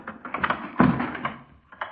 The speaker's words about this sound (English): Then I'll open it. Stand clear. Some use for regulation police boots after all.